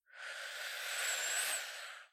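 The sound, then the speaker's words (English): A person draws one long, deep breath in, a steady airy rush of about two seconds that swells smoothly and then fades, heard on its own. “Breathe in.”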